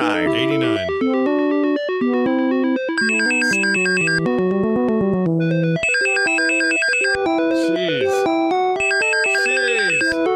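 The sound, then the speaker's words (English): Loud, insistent synthesized ringing melody from a 1989 computer game for DOS and Commodore 64, with bright electronic tones repeating in quick, busy phrases throughout without pause. “That's the loudest ring noise.”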